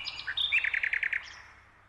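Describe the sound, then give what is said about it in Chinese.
A nightingale sings a bright, high-pitched phrase: a few sharp opening notes, then a quick run of rapid, evenly spaced repeated notes that fade into a soft tail. “那我们还是来听听夜莺唱的歌吧。”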